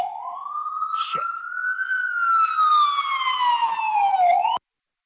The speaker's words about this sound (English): You muted until the NYPD was gone, or was that an ambulance? Or whoever that was, an ambulance.